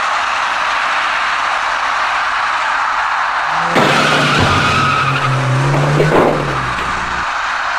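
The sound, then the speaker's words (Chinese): A cement mixer truck turning right at an evening intersection in Changping strikes a cyclist riding straight through. A loud squealing, skidding sound rises over steady traffic noise for a few seconds, then cuts off. “从事故过程来看，那辆水泥罐车当时正在向右进行转弯，而那位骑车人想要直行通过路口，由于存在视觉盲区，处于右转弯状态中的水泥罐车不慎把那位骑车人刮倒在路”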